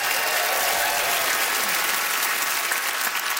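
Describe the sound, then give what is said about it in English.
Audience applause greeting a comedian at a stand-up show, a dense, steady wash of clapping that holds at an even loudness for the whole stretch with no voices on top. “Let's hear it for James Mullinger.”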